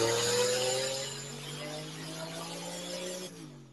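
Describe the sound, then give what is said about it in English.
High-horsepower car engine pulling on a mainline chassis dyno, making about 762 wheel horsepower on wastegate pressure only: a loud, sustained engine drone with a steady harmonic tone that shifts abruptly near the end. “As it sits on the on the mainline dyno here. Yeah, I think what was this one? Like a 762 to the wheels, wastegate pressure only. Beautiful.”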